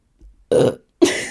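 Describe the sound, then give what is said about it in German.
A person burps, letting out two loud, throaty belches about half a second apart after a faint brief sound, with no talking around them. “ganz kurz, ich muss aufstoßen.”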